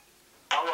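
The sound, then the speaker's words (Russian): A phone rings with an incoming call back: after a brief quiet, a loud electronic ringing tone starts abruptly and holds to the end. “Так, перезванивает он. Прошло минут 30.”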